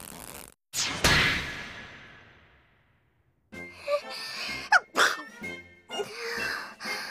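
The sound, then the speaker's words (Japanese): A single sharp sneeze bursts out loudly and trails off slowly over about two seconds, followed after a pause by several short vocal sounds. “くしゃみが出る。風邪かな。”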